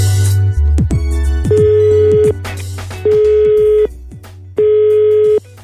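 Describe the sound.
Telephone ringback tone on a call to a company about a job vacancy: three long, steady mid-pitched beeps separated by short pauses, loud and alone, preceded by a low hum and a few brief clicks.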